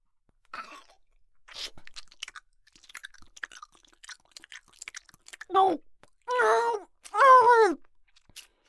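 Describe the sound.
Biting and chewing meat by a hungry female monster character: many soft, wet smacks and crunches, followed by three drawn-out moaning vocalizations.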